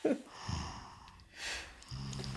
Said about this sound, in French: il dort et ben, il ronronne un peu, il ronfle un tout petit peu, c'est là, il y a ce petit bruit.